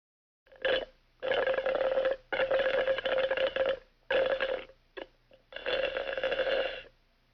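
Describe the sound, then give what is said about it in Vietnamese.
Juice slurped through a straw in a run of buzzy, steady-pitched sucking noises, several drawn-out pulls separated by brief pauses, with a couple of short sips near the end. “Câu vừa rồi có thể hiểu là em gái tôi đang hút nước ép chụt chụt qua ống hút, giống như là đoạn âm thanh sau đây.”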